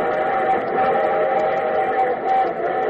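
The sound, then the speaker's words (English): A locomotive whistle holds one sustained, reedy chord at an even, unbroken loudness from start to finish. “Yes, that's the sound of the locomotive whistle, one of the friendliest, most familiar sounds in all the land.”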